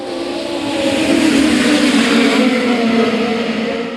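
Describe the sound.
Midget race cars accelerating off the final turn at the green-flag start of a nationals race, a loud continuous engine roar that swells toward the middle and eases slightly at the end.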